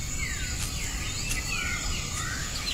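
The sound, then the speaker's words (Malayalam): Bird calls: several short, thin chirps that slide downward in pitch, repeated at uneven intervals over a steady, high insect-like drone. “അതെന്ത് പക്ഷിയാ?”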